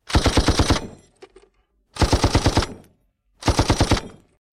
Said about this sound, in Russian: МГ-30 наконец-то замер и начал огонь по целям.